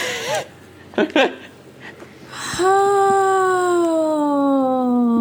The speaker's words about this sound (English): I'm so sorry if you can hear my dog barking.